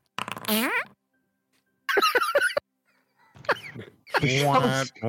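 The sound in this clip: A fart sound effect from Foundry virtual tabletop plays during a Dungeons & Dragons session: one brief, sputtering, falling burst, followed by people talking and reacting in short bursts.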